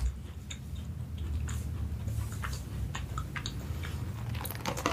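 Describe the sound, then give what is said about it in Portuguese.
Macarons being chewed, with many soft crunches and moist mouth clicks in an irregular rhythm, fairly quiet and steady, with no talking. “Comi os macarrons.”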